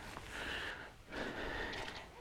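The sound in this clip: A voice imitates panting with two faint, breathy huffs, each lasting just under a second and separated by a brief pause.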